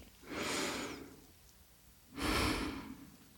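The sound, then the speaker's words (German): A deep breath in and out: two airy rushes of air separated by a short pause, the second slightly louder and fuller, with no speech. “schließ kurz die Augen und atme einmal tief durch”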